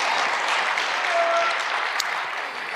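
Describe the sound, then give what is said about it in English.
A church audience applauds in dense, steady clapping that holds evenly throughout and eases slightly near the end. “Give them a high five and a round of applause to somebody.”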